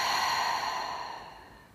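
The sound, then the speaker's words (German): A deep breath during a guided breathing exercise, drawn in through the nose and let out through the mouth, heard as one soft, airy rush of breath that slowly fades away. “Atme tief ein durch die Nase und aus durch den Mund.”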